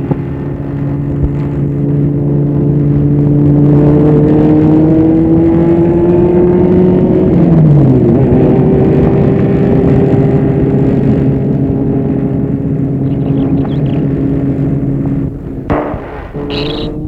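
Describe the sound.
A car drives along an empty road, its engine holding a loud, steady low drone whose pitch dips once midway, with a few bumps near the end.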